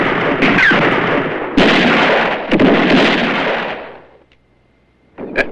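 Gunfire in a Western shootout among rocks: a few heavy, booming shots, each with a long noisy tail that runs into the next, fading to near silence before one more shot near the end.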